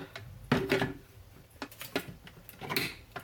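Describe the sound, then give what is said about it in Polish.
A plastic water tank is pushed into its slot at the back of an espresso machine with a few soft clicks and knocks. The faint bumps come in an uneven series, spaced apart, with no speech. “Dolałem, myślę, że tyle wystarczy. Wstawiam pojemnik na miejsce, w którym powinien być, czyli z tyłu ekspresu,”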